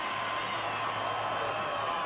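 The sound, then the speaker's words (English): A crowd at a political rally applauds and cheers in a dense, even wash of noise lasting about two seconds, with no single clap or voice standing out. “Are they applauding socialism there? Yes, Greg, they are.”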